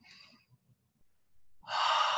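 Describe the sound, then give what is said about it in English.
One deep breath drawn in, a loud, airy inhale near the end that follows a stretch of near silence broken only by faint breathy traces. “Nice deep breath.”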